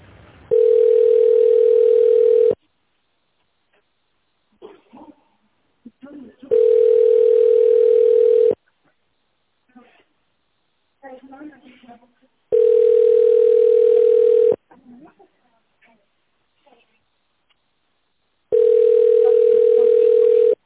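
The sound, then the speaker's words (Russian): Telephone ringback tone as a call is transferred to an accountant: four steady, level tones of about two seconds each, the last cut off, separated by longer gaps where faint, muffled voices talk. “Ваш звонок перенаправляется главному бухгалтеру Чумаковой Ирине Ивановне.”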